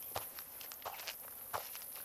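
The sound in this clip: Soft footsteps of a hiker climbing uphill on a trail late in a long day of hiking: a few faint, irregular steps over a low, steady background hiss.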